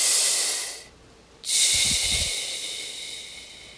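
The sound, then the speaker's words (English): Breathing through a snorkel while floating in the ocean: loud, airy hissing breaths through the tube, one long breath, a short silent pause, then another drawn-out rushing breath that slowly tapers off. “All I can hear, and it's almost amplified by my snorkel, you know, going from my mouth past my ear up to air, I can hear my breath”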